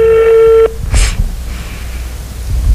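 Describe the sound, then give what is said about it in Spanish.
A telephone rings over speakerphone during an outgoing call: a single steady electronic ringing tone sounds for about half a second and then cuts off, leaving faint background noise. “A ver, está timbrando, está timbrando. Vamos a poner en altavoz, ahí está.”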